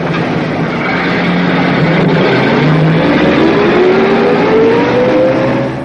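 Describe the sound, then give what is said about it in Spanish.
A tram passing along a street in front of a shop: a loud, steady rolling rumble with a thin motor whine rising in pitch, holding strong before easing slightly at the end. “En la calle, frente al local recién montado, pasa un tranvía.”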